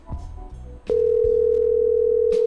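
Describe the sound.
A telephone ringback tone sounds on an unanswered call. After a moment of faint handling noise it plays as one steady, loud, even tone lasting over a second, then cuts off.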